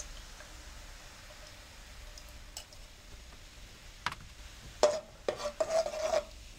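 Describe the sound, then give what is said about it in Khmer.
Stirring of coconut milk with cane sugar in a pot, a faint low background at first, then a few short scraping and clinking strokes near the end. “រំងាស់វាបន្តិចដើម្បីឲ្យខ្ទិះរបស់យើងវាឆ្អិនបន្តិច”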